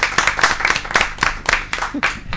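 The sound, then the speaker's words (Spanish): Applause for the guests after an absurd quiz: a short run of distinct, crisp hand claps in an uneven rhythm, fairly loud, lasting only a couple of seconds. “vamos a darles un aplauso a nuestros invitados y a nuestras invitadas por responder este test que no tiene solución a todo esto”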